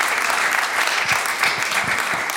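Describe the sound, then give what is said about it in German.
Dense, steady audience applause rings out for two performers on a music show, an even wash of many hands clapping without a break and with no voices on top. “Annette Kienzle und Werner Acker, nochmal einen ganz großen Applaus.”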